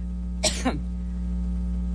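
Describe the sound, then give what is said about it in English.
A woman coughs once in two quick, harsh bursts over a steady low electrical hum, with another cough just beginning at the very end. “She coughs well. She's a good cougher. Presidential cough.”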